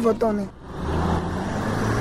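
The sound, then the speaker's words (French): A truck from Sibut arriving at the PK12 market: a voice speaks briefly at the start, then a steady low engine rumble with broad road noise continues to the end. “Après quelques minutes, un camion en provenance de Sibut vient d'arriver.”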